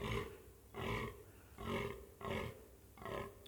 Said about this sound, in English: there's this huge male fallow deer, I suppose you call it a stag in English, and he's trying to charm the ladies